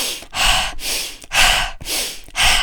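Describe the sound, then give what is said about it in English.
Deep, forceful breathing used as breathwork to resist a cigarette craving: several loud, airy inhales and exhales follow one another in a steady rhythm, separated by brief pauses, with no talking. “I was doing like super deep inhale and exhale”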